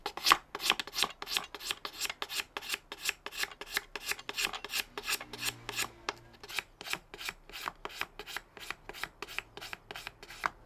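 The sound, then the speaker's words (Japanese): Rhythmic rasping as a craftsman shaves the thread-winding section of a traditional Edo bamboo fishing rod in Tokyo, many quick, even strokes at a steady pace, fairly quiet with no talk. “糸を巻く部分を削って下地を作る巻き下”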